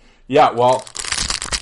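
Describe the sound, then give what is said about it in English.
Packs of hockey cards being handled and opened make a dense, crinkly rustle after a brief voiced sound, continuing as an uneven, papery crackle to the end. “I have hockey cards right here.”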